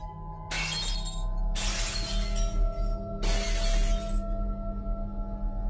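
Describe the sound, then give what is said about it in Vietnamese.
Chipped earthenware bowls crash and shatter as they are flung around late at night, in three loud bursts of breaking with scattered rattling pieces over a steady low hum. “Mấy cái bát mẻ nêu đất ở góc nhà, nó cũng cầm quăng toán loạn, tạo ra những âm thanh đổ vỡ loảng xoảng trong đêm khuya.”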